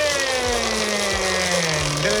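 A large game wheel given a big spin whirs continuously with a steady mechanical hum whose pitch slowly drifts downward, loud throughout with faint rhythmic pulses underneath.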